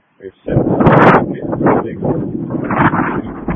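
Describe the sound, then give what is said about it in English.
Wind buffets a radio microphone on an emergency dispatch channel, producing a loud, rough, low rumbling roar that starts after a brief click and persists unevenly for about three seconds, masking any transmitted voice. “There's a lot of wind. I'm not catching much of that.”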